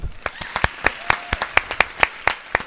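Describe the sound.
A few people clap to welcome back a returning guest during a golf talk show, about a dozen crisp claps in a quick, slightly uneven rhythm.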